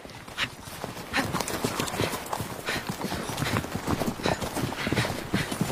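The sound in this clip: Hooves clip-clop as a horse is ridden, a steady run of many sharp hoofbeats in an even rhythm that stays fairly loud throughout.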